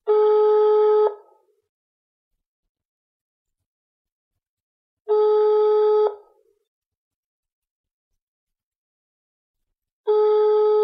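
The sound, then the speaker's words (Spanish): A phone's ringback tone sounds while an outgoing call connects: two steady, fairly faint electronic tones about five seconds apart, each lasting just over a second, with a third starting at the very end. No one speaks. “voy a llamarle un momentito para cerrar los detalles del viaje de mañana. Siri, llama a Rafa Latorre. Llamando a Rafa Latorre.”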